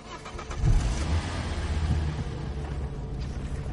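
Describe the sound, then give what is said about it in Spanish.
A car engine starts, swelling into a low rumble and then settling into a steady, moderately loud idle. “Arranca el coche y se pone el cinturón.”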